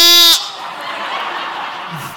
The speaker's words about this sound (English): We got a sheep here